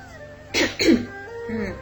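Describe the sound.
A woman gives a dry cough: two quick, harsh bursts in close succession, moderately loud, followed by quiet.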